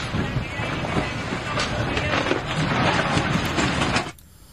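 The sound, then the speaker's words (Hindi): A formerly residential building, now in ruins, being demolished, a loud continuous rumble with scattered cracking bursts that cuts off abruptly near the end. “ये video है उस समय का जब इस इमारत को ध्वस्त किया जा”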